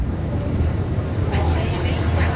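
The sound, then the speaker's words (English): Ambience aboard a commuter ferry: a steady low engine rumble with wind noise stays constant throughout, with faint, indistinct voices mixed in. “All right, so here we are on the ferry.”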